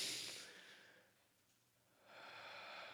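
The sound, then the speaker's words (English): A deep breath from someone with a cold, a faint, long airy hiss that thins out in the middle and swells again, heard alone without talk. “And just take a deep breath with me. And I have had a cold this week, so I need to take another deep breath because I can just feel it rattling around.”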